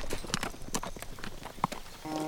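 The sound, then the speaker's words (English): An Appaloosa horse trots, its hooves striking in many quick clip-clops with an uneven rhythm, fairly faint throughout. “he pulled the Appaloosa's head around and heeled him into a trot that carried them away from the hacienda”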